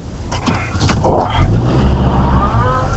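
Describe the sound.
Steady low road rumble and engine drone from a car being driven fill the cabin, continuous and fairly loud, with brief talk heard over it early on.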